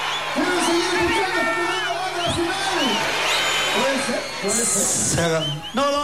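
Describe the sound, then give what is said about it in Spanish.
A live audience calls out and cheers at the end of a show, many overlapping voices shouting and whooping loudly and continuously throughout. “A ver, escuchemos. ¿Qué está diciendo el público”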